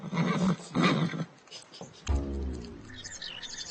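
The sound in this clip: A pony whinnies in a long, wavering harmonic call lasting close to two seconds. A few short, rough, noisy bursts come before it.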